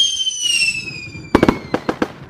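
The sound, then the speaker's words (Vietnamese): Fireworks at the Da Nang international fireworks festival over the Han River: high, thin whistling tones drifting slightly downward, then about six sharp crackling bangs in two quick clusters. “Mỗi mùa hè, Đà Nẵng lại bừng sáng với những đêm pháo hoa rực rỡ.”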